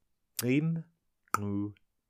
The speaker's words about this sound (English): demonstrates four click sounds, which are created at the front of the mouth and can all be demonstrated in the sentence